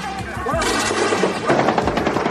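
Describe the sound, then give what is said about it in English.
Loud bursts of rapid machine-gun fire from a helicopter gunship overhead, shooting toward a compound during a civil war. Many sharp cracks repeat densely, with no pause between them. “That's a helicopter gunship overhead, firing into the general direction of General ID's compound.”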